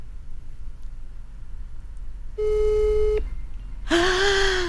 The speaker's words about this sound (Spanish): Vamos a ver. A ver. Estamos marcando.